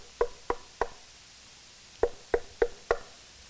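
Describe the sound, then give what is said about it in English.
Knocking on a door: seven sharp, crisp raps in two groups, three evenly spaced knocks, a short pause, then four more at the same steady pace, fairly loud against a quiet background. “The Holy Spirit could be just knocking at your heart and saying, "Would you let me come in?"”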